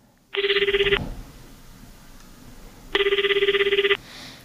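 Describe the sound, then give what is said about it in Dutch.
Telephone ringing as a call is placed: two separate bursts of a bright, rapidly trilling electronic ring, each lasting under a second, with a quiet pause between them and no talk. “Zeg, zullen we nog even bellen met juffrouw Caroline?”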